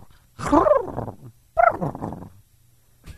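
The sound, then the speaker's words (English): A person imitates a turkey gobble with the voice, producing two loud, throaty, warbling bursts, the second following a short pause. “No, I do turkey. What? I oh, you turkey. Do a turkey, right.”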